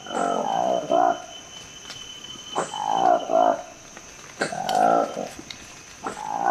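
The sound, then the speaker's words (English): Calls of the newly discovered Likweli monkey from the Democratic Republic of the Congo: a few bursts of hooting, cooing harmonic cries, each with wavering tones, set against a steady high-pitched buzz of insects. “this is the remarkable sound of a newly discovered monkey in the Democratic Republic of the Congo. It's called the Likweli monkey.”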